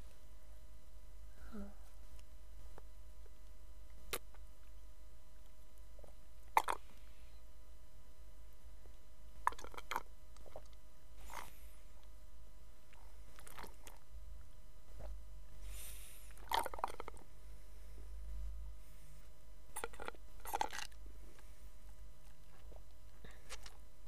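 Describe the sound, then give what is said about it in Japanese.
Someone drinks water through a straw, producing faint, brief sips and wet slurping bursts. They come a few at a time, separated by long quiet gaps over a low, steady background noise. “今からストローでお水を飲みます。”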